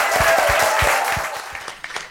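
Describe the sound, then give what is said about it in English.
Audience applause at the close of a bookshop talk. Loud, dense clapping fades toward the end, thinning out into a few scattered individual claps. “Can we give a huge round of applause?”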